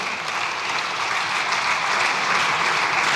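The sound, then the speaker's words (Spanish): Sustained applause for Spanish politician Pablo Casado, a thick, uniform patter of many hands clapping at an even loudness for just over three seconds, with no voices heard. “Y si es por aplausómetro del que hablaba antes, Pablo Casado se lleva la palma el día antes de que le expulsaran de su partido. A ver si que le aplaudieron.”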